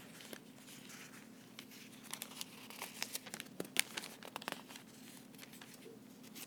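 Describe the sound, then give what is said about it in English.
Pages of a Bible turn quickly, giving faint papery rustles and soft crinkling snaps that cluster in the middle of the stretch. “As quickly as I can get a page turned here.”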